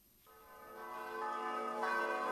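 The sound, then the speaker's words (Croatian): Church bells ring at a Serbian Orthodox church as believers gather to welcome the patriarch, a sustained ringing rich in overtones that swells steadily louder, with no voices. “Uz zvona i molitvu pale su dočekale patrijarha srpskog Porfirija.”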